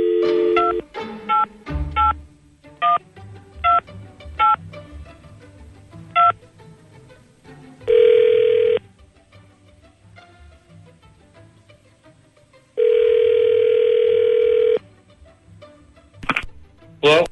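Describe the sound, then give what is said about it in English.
Touch-tone telephone dialing: a quick series of short electronic beeps, followed by two long, steady ringing tones separated by a silent pause, then a few more brief tones at the end. “Okay, so let's call up you-know-who here. Hang on a second. Dialing at random.”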